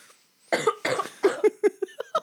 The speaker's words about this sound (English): Excuse me, I have to spit in my phlegm because I did a cough.